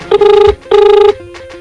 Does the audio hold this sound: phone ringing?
yes